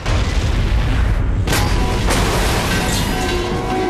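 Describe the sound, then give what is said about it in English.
A lorry of gas canisters explodes in a Terminator film chase. A loud, roaring blast spreads into sustained rumbling, with a couple of sharp bursts partway through. “Her arm morphs into the futuristic weapon, but John brakes hard and she blasts a lorry of gas canisters into Kingdom Come instead.”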